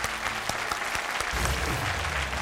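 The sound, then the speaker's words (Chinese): Residents at a neighbourhood meeting about a gas system renovation applaud: scattered individual claps quickly thicken into steady, dense clapping that holds to the end. “假如她能向前一步，请在座的街坊们给她点掌声。”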